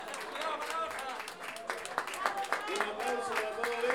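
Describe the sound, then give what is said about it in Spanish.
Audience clapping at a festival of payadores and improvised contrapunto duels. Scattered claps sit softly under a man talking throughout. “un aplauso también a cada uno de los participantes de este evento.”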